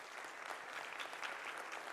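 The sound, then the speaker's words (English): An audience claps together in a dense, even patter that stays steady for the full two seconds, fairly soft overall, with no voices standing out. “You're clapping because I remembered their ages and names.”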